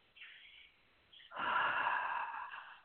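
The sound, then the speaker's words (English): A deep breath drawn by a person settling in: a short, faint airy inhale, a brief pause, then a longer, louder rushing breath that slowly fades. “So we're going to do a breath and we're just going to get connected. That's right. One more deep breath.”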